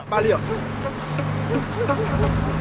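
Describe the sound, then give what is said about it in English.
Bus approaching a street corner: a steady low engine drone and road noise, with voices talking over it throughout. “The gang arrive at a street corner as the bus approaches.”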